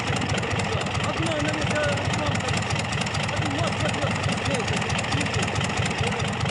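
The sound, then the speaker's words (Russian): A crawler tractor engine runs with a steady, continuous low rumble on an airstrip as mechanics cable a damaged aircraft to it, while a voice talks over the engine. “Под руководством Макарыча механики крепят самолет тросом к гусеничному трактору. Да выключите его к чертовой матери!”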